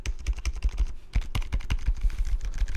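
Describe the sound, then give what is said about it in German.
Typing on a mechanical keyboard with tactile, non-linear switches, many rapid, irregular keystrokes tapping alone at a fairly quiet level, with soft rather than sharply clicky strikes. “Die klickt eher nicht so. Die hört sich eher so an. Die sind nicht linear, die sind, glaube ich, eher taktil.”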